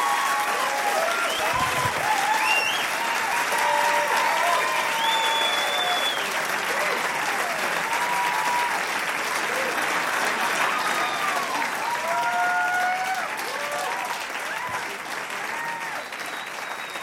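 Audience applause for a comedian at a comedy show: loud, sustained clapping from a crowd that carries on steadily and eases off slightly toward the end.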